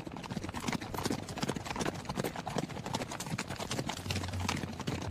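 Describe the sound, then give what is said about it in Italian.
Horse hooves clip-clop steadily as a horse-drawn carriage moves off, with many quick, even hoof strikes in a brisk rhythm over a faint low rumble. “Mestamente riprende le sue cose e sale sulla prima carrozza diretta a Cordova.”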